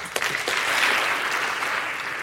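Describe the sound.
An audience applauds to welcome a debater at a formal debate on solar geoengineering: dense, steady clapping that swells briefly and then holds at an even, fairly loud level, with no voices.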